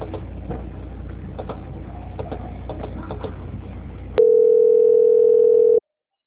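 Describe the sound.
Steady single-pitch telephone line tone during a call transfer, sounding for under two seconds after about four seconds of crackling, clicking line noise, then cutting off abruptly into silence.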